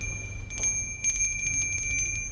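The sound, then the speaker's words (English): A bell rings with a sustained, bright metallic tone of steady high overtones, swelling louder again about halfway through and ringing on alone without voices. “Aren't you going to ask me why I rang the bell?”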